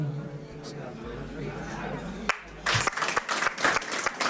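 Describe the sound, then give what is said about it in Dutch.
Audience applause at a live on-location event. Low hum and murmuring voices come first, then dense, loud clapping breaks out partway through and continues to the end. “Ja, applaus!”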